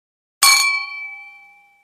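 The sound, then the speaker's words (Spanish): Glasses clink together in a toast, one bright strike whose clear ringing tone fades away over about a second and a half, with nothing else around it. “¡Uf! ¡Brindemos! ¡Rápido!”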